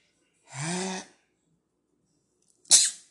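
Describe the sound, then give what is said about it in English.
A sneeze: a drawn-out voiced intake builds for about half a second, then after a pause comes a sharp, noisy burst. “I sneeze like a little bitch, so don't laugh at me.”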